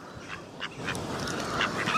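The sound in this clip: Ducks quacking, played back from a sound file: several short nasal calls stand out at irregular moments over a steady, noisy background, with no talk.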